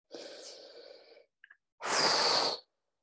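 A deep breath in and out: a long, airy inhale, then after a short pause a louder, rushing exhale.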